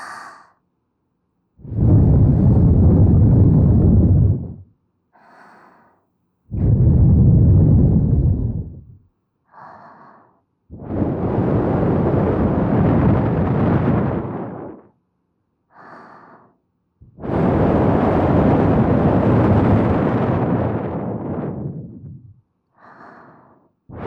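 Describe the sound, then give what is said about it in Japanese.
Someone blows air hard into the microphone: four long, loud rushes of breath, each lasting several seconds, separated by short, quieter breaths. “それでは、今度はもう少し強めに吹いておきますね。せーの。”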